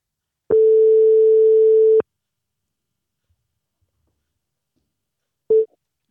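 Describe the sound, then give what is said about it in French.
Telephone ringback tone as a call rings out to a school teacher: one steady, even tone of about a second and a half, a pause of silence, then the clipped start of a second tone. No voices are heard. “Et là, du coup, on va l'appeler.”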